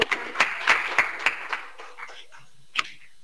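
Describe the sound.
A few people clap at a children's holiday course gathering, giving sharp, scattered claps in a loose run that thins out, then one last clap after a pause. The claps are quiet and sparse rather than a full round of applause.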